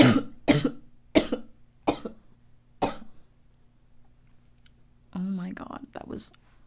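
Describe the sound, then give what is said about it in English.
A painful, harsh cough bursts out five times in a row, each cough sharp and ragged, growing fainter before a voice speaks briefly. “a really painful cough.”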